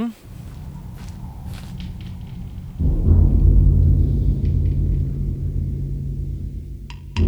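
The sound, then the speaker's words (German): Footsteps hurrying up a staircase: light scattered taps give way to a dense, heavy thudding rumble of quick steps that carries on steadily to the end. “Leise und auf Vorsicht bedacht betraten Justus und Peter die Villa. Dann huschten sie die Treppe hinauf zur Bibliothek.”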